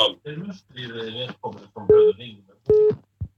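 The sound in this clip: Telephone ringback tone of a call ringing out, heard as two short steady electronic beeps with a pause between them, following a stretch of talk.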